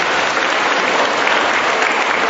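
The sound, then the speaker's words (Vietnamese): Audience applause congratulating attendees who travelled from distant provinces, a loud, dense round of clapping that stays steady and continuous from start to finish with no pause. “Đấy, thưa anh chị em, một tràng pháo tay vỗ chúc mừng những người dại.”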